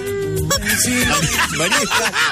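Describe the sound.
A duck gives many loud, nasal honking calls in quick succession, some overlapping, with no pause in the squawking.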